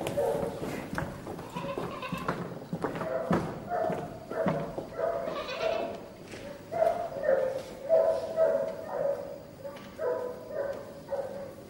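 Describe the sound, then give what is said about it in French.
Enraged dogs barking at night, with many sharp barks in an irregular, continuous run and voices speaking over them. “Les chiens sont enragés. Ils ne vont pas nous laisser dormir.”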